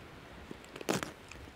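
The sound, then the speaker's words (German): Quiet crunching and chewing as a person tastes an edible sample, with a few short crisp bites, the loudest cluster falling near the middle and softer crunches around it, no talking. “Kann man das eigentlich auch essen? Ja, klar kann man die essen. Okay, dann probiere ich mal.”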